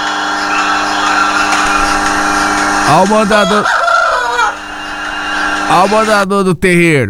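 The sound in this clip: A rooster crows in a farm yard, giving two loud, strained crows with clearly pitched harmonics. A constant droning background runs beneath both calls.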